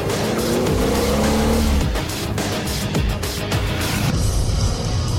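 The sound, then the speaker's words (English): A car races at speed through Paris streets, overtaking traffic and running red lights. A loud, steady engine roar runs throughout, with tire squeal in the first seconds and no voices. “Wax is driven at speed through the Paris streets. They overtake on both sides and race through red traffic lights, Wax clinging onto a handle for support.”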